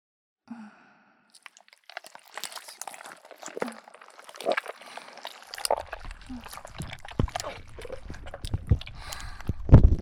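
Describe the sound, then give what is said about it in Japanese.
Runny, almost liquid, smooth slime is squished in many soft, wet squelches and crackles. They start sparse after a faint breath and grow denser and louder toward the end. “ドロッドロの、ほとんど液体の、すべすべスライム。”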